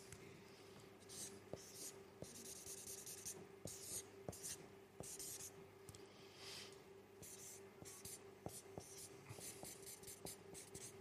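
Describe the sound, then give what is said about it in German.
Someone draws at a desk with a pen or pencil on paper, a faint, busy run of many short, quick scratching strokes broken by brief pauses. “Ich zeichne mal kurz was.”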